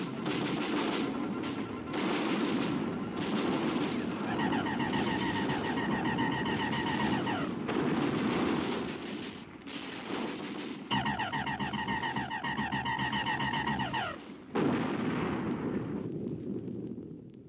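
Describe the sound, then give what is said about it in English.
Artillery batteries firing in a radio drama battle effect: a dense, continuous barrage of booming blasts and rumbling, with high whining tones sweeping over it in two long stretches, loud throughout. “They're coming at us! All batteries, repeat fire!”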